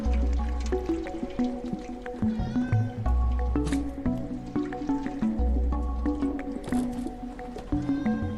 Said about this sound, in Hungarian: Iszunk egy picit, hiszen megszomjazott a cica ebben az őrületes nagy mászkálós kalandban. Nem úgy van ám, hogy csak hagyjuk, hogy kiszáradjon szerencsétlen macska.